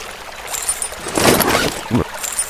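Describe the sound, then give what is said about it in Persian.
A fishing line cast in a video game splashing into the water: a broad splashy burst, then a shorter second splash, over a faint background. “فیشینگ پول رو میدم دست راستم، دست چپم تی میزنم، این میره میفته تو آب.”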